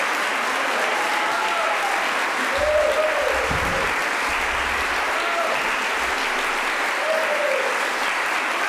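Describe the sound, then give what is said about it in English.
Dense, steady applause from a happy audience at Heliconian Hall in Toronto after a virtuoso live performance of 18th-century Neapolitan music, a continuous wash of many hands clapping at an even level throughout. “happy audience here at Heliconian Hall in Toronto after that virtuoso performance by Francesco Pellegrino and fellow members of the Vesuvius Ensemble.”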